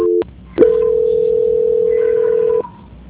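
A telephone call transfer tone: a brief double tone, a short pause, then one long, steady mid-pitched tone holding for about two seconds before cutting off, with no talk over it.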